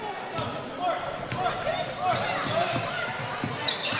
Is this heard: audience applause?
no